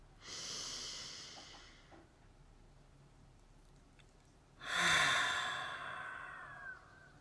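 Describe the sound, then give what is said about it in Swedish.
A long, deep breath is drawn in softly and steadily, then a quiet pause, then a fuller, rushing exhale that slowly fades. It is faint and heard alone. “så tar du ett långt djupt andetag. Och fyller dina lungor och släpper ut luften igen.”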